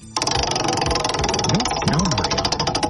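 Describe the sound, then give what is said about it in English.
A game-show-style prize wheel spins with a rapid, dense ticking rattle that starts abruptly and runs on steadily at an even loudness. “You get the first dibs to give the wheel a spin like Price is Right style.”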